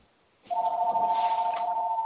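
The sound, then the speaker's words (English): A phone rings with a steady electronic tone that starts abruptly and holds without a break to the end. “That's my phone. Please mute yourself.”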